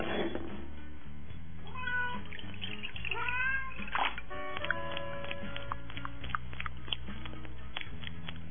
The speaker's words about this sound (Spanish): Ven, gatito. Ichi, ichi, ichi, ichi, ichi. Ven, no te haré daño.